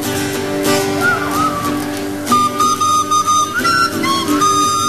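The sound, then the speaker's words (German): Someone whistles a wavering melody at a music festival in Salzburg, the pitched notes gliding and breaking off against a dense, noisy background, growing louder and more distinct in the second half. “Pfeifen, nicht?”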